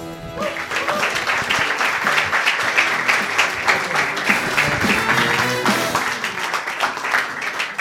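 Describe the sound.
Audience applause welcoming a comedian on stage for a stand-up set, loud dense clapping that holds steady from start to finish.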